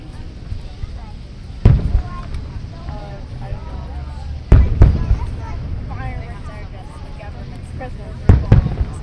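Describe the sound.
Fireworks boom through a grand finale: a few sharp, loud bursts stand out over a steady crackling rumble, with people talking and exclaiming between the blasts.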